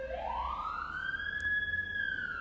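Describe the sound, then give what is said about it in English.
A siren wails from an emergency vehicle passing by outside. Its pitch climbs steadily in one long rising sweep with a fainter overtone above it, fairly quiet over a constant low background rumble. “And as the sirens go by and I'm sitting here”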